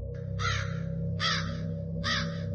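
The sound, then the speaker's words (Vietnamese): Three harsh crow caws overhead at dusk, evenly spaced and loud, each a short raspy burst over a steady low hum. “Tiếng quạ kêu quang quát trên đầu.”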